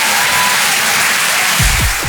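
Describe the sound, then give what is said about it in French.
Applause for a comedian at the close of a stand-up set: dense, steady clapping from an audience that holds at an even level throughout, with a few low thumps near the end. “Ceux qui n'ont pas applaudi, c'est des jaloux.”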